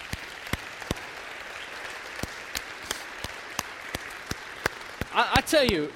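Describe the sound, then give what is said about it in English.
Scattered sharp claps from a church audience applauding its welcome teams, spaced fairly evenly, followed by a brief burst of voices at the end. “Can I tell you, we need to give it up for our welcome teams.”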